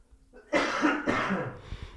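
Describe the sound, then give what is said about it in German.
A person coughs once more, a short, harsh, breathy burst that breaks into two rough pushes before trailing off into faint breath, loud and alone without talk. “ich muss nochmal husten.”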